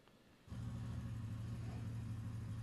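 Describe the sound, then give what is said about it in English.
An engine is cranked up as the gas pedal is pressed. It kicks in abruptly after a quiet moment, then holds a steady, low, rumbling drone. “Look. I'm pressing the gas to get everything cranked up.”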